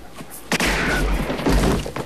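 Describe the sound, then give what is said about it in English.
Gunshot in a film scene on a rickety wooden jetty: a sudden loud blast, followed by another heavy hit and a stretch of dense, thudding noise. “The shot throws Scorpio off his feet.”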